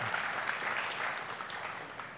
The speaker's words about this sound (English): that applause is mostly for her